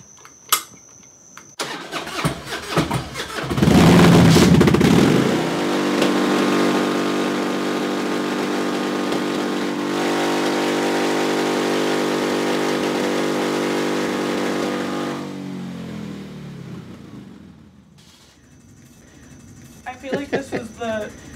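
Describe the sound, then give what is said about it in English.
A Harley-Davidson motorcycle engine starts with a loud burst, then settles into a steady, throbbing idle for about ten seconds before winding down. Faint voices are heard at the start and end. “Is it a Harley? It's a, oh, yeah. Oh. Oh, yeah, it's a Harley. That is a beauty.”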